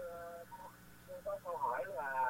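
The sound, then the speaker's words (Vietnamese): A caller's radio playing in the background of a phone line into a call-in show, heard as a faint, thin, narrow-band mix of voice-like tones and harmonics coming through the telephone. “Anh nghe bằng điện thoại thôi, tắt dùm cái radio bên đó đi. Thì câu hỏi anh sẽ nghe rõ hơn nhé.”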